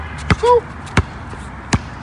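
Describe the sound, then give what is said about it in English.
A basketball is dribbled in New York, giving three sharp, solid thumps spaced roughly evenly apart. A short tonal chirp sounds between the first two bounces. “We here, we in New York, dribbling this ball around.”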